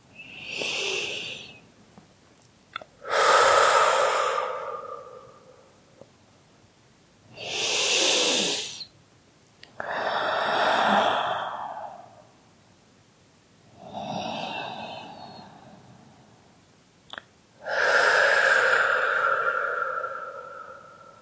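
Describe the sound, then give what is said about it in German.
Deep breaths taken slowly and deliberately: six long, airy, loud breaths separated by short pauses, with no talk. “dann lade ich dich jetzt ein paar Atemzüge und nur so 3, 4 wirklich tiefe Atemzüge damit zu nehmen, mit diesem Gefühl von Stolz.”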